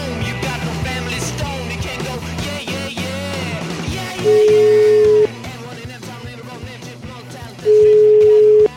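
A telephone call ringing out: two long, steady, evenly pitched ring tones separated by a pause, sounding loudly over music.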